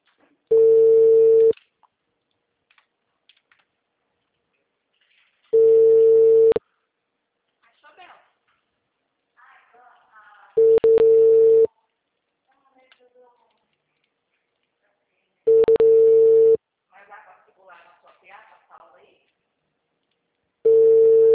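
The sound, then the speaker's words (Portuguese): A phone line gives the ringback tone of a call to her sister: five steady, buzzing tones, each lasting about a second and spaced roughly five seconds apart, with faint voices between them. “Ligando para a irmã dela.”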